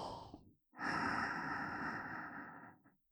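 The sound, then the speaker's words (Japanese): A person breathes deeply during a guided breathing exercise: one short airy breath, a brief silence, then a long, loud, rushing breath of about two seconds that fades out. “はい、吸って”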